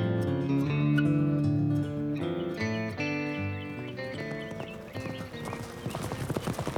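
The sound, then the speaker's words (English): Hooves clip-clop as horses climb a stony mountain path of round gray stones, the hoofbeats dense and steady, turning sharper and more broken toward the end. “Now round gray stones mark the path, making hard work for the horses.”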